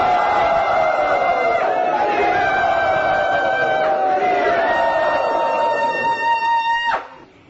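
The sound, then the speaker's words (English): A crowd at an ISKCON temple gathering loudly welcomes a speaker, many voices joining in one long sustained cheer whose pitch slowly falls before cutting off abruptly near the end. “Let us very loudly welcome Janani Vas Prabhu.”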